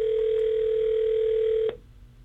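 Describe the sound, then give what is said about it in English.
A steady telephone dial tone sounds while a call is being placed, holding one unchanging pitch for nearly two seconds before a click cuts it off and leaves a low hiss. “So let me make the call here and see what we've got going on. Here we go. So we're dialing. There we go. We are dialing.”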